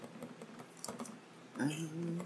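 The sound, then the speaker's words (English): Light typing on a computer keyboard during a tabletop role-play game: a few soft, quick key clicks, followed by a voice speaking near the end. “And she types...”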